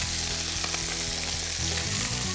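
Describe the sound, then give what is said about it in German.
Food frying slowly in hot fat over moderate heat and being turned over in the pan. A steady, dense sizzle runs throughout, with a few soft knocks and shuffles as the pieces are flipped. “Die werden wie ganz langsam frittiert. Darf man von der Hitze nicht zu hoch machen. Weil wenn es zu hoch ist, dann verbrennen sie außen und sie sollen ja eigentlich wie so durchtrocknen. So, jetzt muss ich das noch mal rumdrehen.”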